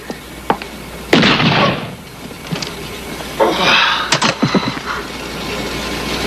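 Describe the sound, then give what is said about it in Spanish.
A gunshot bursts out loudly and rings off, followed later by a few more sharp bangs and crackling bursts. No voices are heard. “No tenías que dispararle.”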